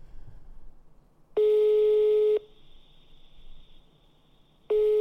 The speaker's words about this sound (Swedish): Jag måste ringa honom och fråga faktiskt.